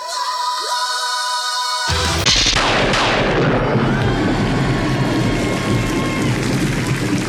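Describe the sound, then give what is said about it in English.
An explosion sound effect: a sudden blast cuts in after a brief tonal lead-in, then a long, loud roar of rumbling, crackling noise holds steady to the end. “Blast is your onomatopoeia of the week, and the sound of an annoying roommate exploding as seen in the pages of Doom Patrol number one.”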